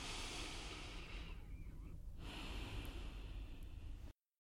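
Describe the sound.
A person breathing slowly: one long, steady airy breath sound lasting about four seconds, with a brief dip near the middle, heard alone with no talk.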